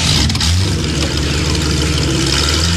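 A car engine running and revving as the car drives off in a film scene, a loud, steady rumble with no voices.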